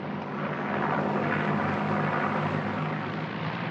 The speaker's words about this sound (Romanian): Aterizează! A aterizat! A aterizat! Extraordinar! A executat aterizajul ca un pilot încercat.